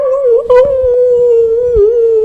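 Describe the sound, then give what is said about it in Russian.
Puppies whine in a sustained, high-pitched, slightly wavering cry that holds steady and loud through the whole clip. “к дому прибилось два щенка с разных собак, откуда они взялись, непонятно, и начали скулить под этим.”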